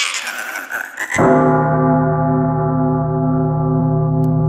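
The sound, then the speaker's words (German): A church bell strikes once after a second of rough, noisy sound, then its deep, rich hum of overtones rings on loudly and evenly to the end. “eine Glocke verbindet man im Abendland eher mit einem harmonischen Gefühl, wenn man die Glocken hört.”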